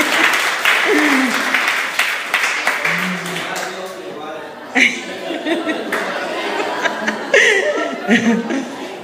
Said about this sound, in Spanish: ¡Bien! Un aplauso para Fanny.